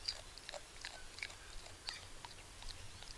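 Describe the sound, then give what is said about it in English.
A koala chewing and crunching a bundle of eucalyptus leaves, with faint, crisp crunches repeating at an irregular chewing rhythm against a quiet background. “I'm getting up here so we can hear him crunching away. Pulling at a little bundle of leaves now and”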